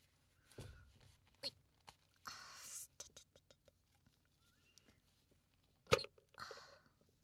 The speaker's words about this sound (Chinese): 一瓶小熊软糖。 喂，完蛋， 我是不是拧不开呀？